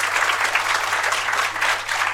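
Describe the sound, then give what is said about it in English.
An audience applauding a guest speaker at a talk: dense, steady clapping that stays loud and even for the whole stretch, with no voices standing out. “Let's have an interim round of applause for Simon.”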